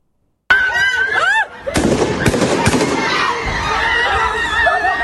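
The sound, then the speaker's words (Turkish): Three sharp gunshots fired by an attacker into a crowd after a funeral meal in Ankara, cracking loudly over screaming and shouting voices that continue throughout. “Gözü dönmüş saldırgan kalabalığın üzerine ateş açtı. İşte o anlar.”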